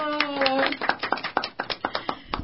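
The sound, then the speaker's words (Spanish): An audience of schoolchildren claps at a school carnival event, with distinct claps falling in a fairly steady rhythm after a brief voice at the start. “¡Un aplauso!”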